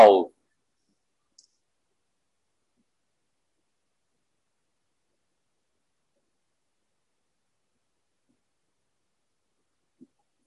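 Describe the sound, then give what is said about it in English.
A computer makes two faint, sharp clicks, spaced far apart in near silence, after a brief burst of speech at the very start. “Sorry, my computer keeps giving noises.”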